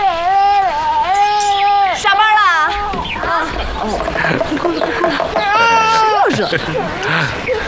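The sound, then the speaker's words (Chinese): An infant cries in loud, drawn-out, wavering wails with sobbing breaks between them, while an adult voice talks over the crying throughout. “哎呦，好孩子，不哭了。哦哦哦，不哭了，不哭了，不哭了。”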